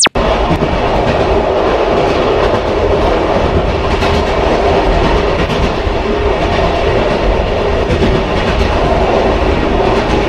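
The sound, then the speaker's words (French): A Micheline railcar train from childhood in Oullins, France, makes a loud, continuous rumbling roar with a rhythmic clatter of wheels on track, opening with a brief sharp knock. “Son d'une Micheline, du train évidemment.”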